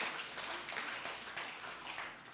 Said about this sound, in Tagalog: Palakpakan mo yung Panginoon. Come on. Hallelujah.